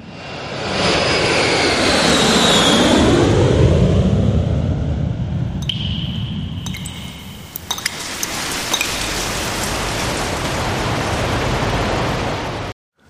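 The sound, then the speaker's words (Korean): A jet airliner taking off, a loud, steady engine roar with a high whine that sweeps downward early on, followed by a few faint clinks before the roar cuts off. “항공기 출발합니다.”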